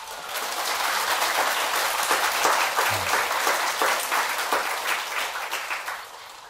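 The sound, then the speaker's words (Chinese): Audience applause from a live comedy performance crowd: dense, sustained clapping that stays loud and even throughout, then thins and fades slightly near the end. “你们这个鼓掌太盲目了啊！”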